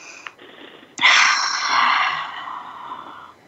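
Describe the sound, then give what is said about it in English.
A big deep breath: after a faint moment, a loud breathy rush of air starts abruptly and carries for about two seconds before slowly fading away. “So let's take a breath together. Process that. Big breath.”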